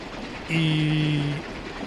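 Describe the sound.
A train sound effect for a radio show's wagon segment sounds as a single steady two-tone horn blast of about a second, rising out of a low background hiss and then cutting off.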